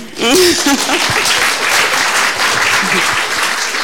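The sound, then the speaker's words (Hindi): Hands clap in a dense, steady burst from a group, loud and continuous, with a brief voice heard at the very start. “ताली बजाओ”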